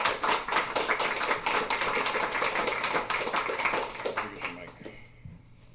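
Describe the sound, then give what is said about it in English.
A microphone being handled and balanced gives many uneven taps, knocks and rubbing bumps, fairly loud and busy, then thins out and fades near the end. “Try to balance a mic. Whoa, that's intense.”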